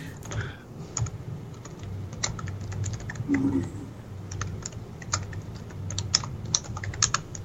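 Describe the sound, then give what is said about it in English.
Someone types on a computer keyboard: many soft, quick key clicks in an uneven rhythm with small pauses, faint against a low steady hum. “typing away”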